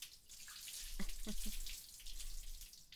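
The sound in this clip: Water runs from a tap in a steady, broad hiss that swells slightly near the middle and holds through to the end.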